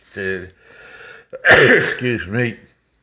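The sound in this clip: A sneeze from someone in an allergy attack: a short voiced breath, a brief pause, then a loud explosive burst trailing into voiced breathy sounds, with no words spoken.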